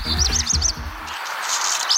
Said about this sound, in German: Das ist nicht einfach nur Vogelgezwitscher. Das ist der Vogel des Jahres 2025, der Hausrotschwanz.